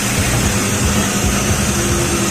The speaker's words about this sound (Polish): Nie jesteśmy w tramwaju, jesteśmy w autobusie.